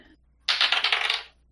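Dice rattle and clatter during a tabletop role-playing game: a sudden burst of many quick, sharp clicks lasting under a second, then fading out, with no talk over it.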